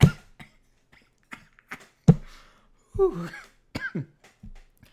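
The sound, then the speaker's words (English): Choking coughs and throat clearing come in several short, rough bursts separated by gaps, with a strained voiced sound partway through. “I'm gonna choke.”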